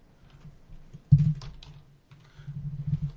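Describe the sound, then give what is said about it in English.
Loud typing on a computer keyboard, with rapid clattering keystrokes in a dense burst, a brief pause, then another run of clicks to the end. “one of the things that people love and miss on the show is me typing loudly.”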